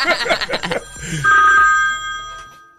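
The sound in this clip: A telephone rings with an incoming call to a morning radio show, giving a loud, steady electronic ring tone that holds for about a second after a brief burst of busier sound.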